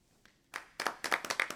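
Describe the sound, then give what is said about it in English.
Faint audience applause: after a couple of lone claps it builds into several quick, uneven bursts of clapping from a small crowd. “No. Don't applaud that.”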